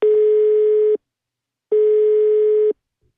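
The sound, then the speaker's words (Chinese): Telephone signal tone on a dialled call: two long, steady, mid-pitched beeps of about a second each, separated by a short silence, loud and alone without talk. “接下来我们又拨通了刚刚那位听众所提到的为他解答关于南瓜问题的陈女士的电话。”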